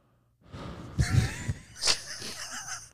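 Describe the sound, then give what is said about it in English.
Heavy, wheezy, breathless breathing close into a microphone: after a brief quiet start, ragged breaths follow, with a sharp gasping intake near the middle. “Hear that in the mic? In the headphones? You just sound like you've been running a lot.”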